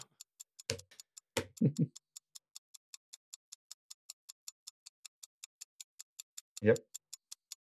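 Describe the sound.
Clock ticking in a fast, even rhythm of sharp, faint ticks that run the whole way through, with a few short bursts of speech cutting in near the start and again toward the end.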